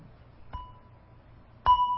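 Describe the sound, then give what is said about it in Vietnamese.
A Buddhist bell struck twice with a mallet, each stroke a clear metallic ding followed by a sustained ringing tone; the first strike is softer and the second louder. “Trước khi mình thỉnh chuông á, là mình phải cầm cái dùi lên và mình thức cái chuông hai cái trước.”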